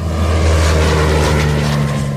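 A small single-engine propeller airplane takes off, its engine giving a loud, steady droning buzz with a strong low hum that holds evenly through the short clip, with no voices.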